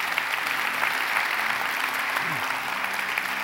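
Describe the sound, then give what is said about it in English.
Applause from a church audience during a Sunday morning service: a steady, dense wash of clapping from many hands that holds at an even, loud level throughout. “Can we put our hands together and welcome people into God's family?”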